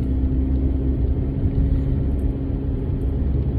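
A car is being driven, heard as a steady low engine rumble with a constant droning hum underneath. No voices can be heard over it.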